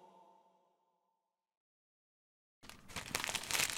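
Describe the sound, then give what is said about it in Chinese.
A paper page blown over by the wind rustles and flaps in a crisp crinkling burst of about a second, following a short silence. “风吹到了下一页。”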